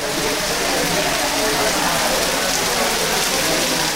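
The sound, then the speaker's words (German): Heavy rain patters on rice fields and huts at a farm in India near the end of the rainy season, a dense, unbroken hiss of drops that holds steady throughout. “Jetzt plattert der Regen auf die Felder und Hütten.”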